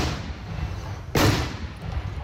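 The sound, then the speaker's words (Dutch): A single carbide cannon shot fired from a milk churn during traditional carbide shooting in a soggy meadow: one sharp, loud bang with a brief roaring tail, set against a steady low background rumble. “wordt er natuurlijk ook weer ouderwets karbiet geschoten. Deze jongen heeft er zin in. Het is een beetje drassig in het weiland. Normaal hebben we 15 melkbussen. Dit jaar doen we met 2.”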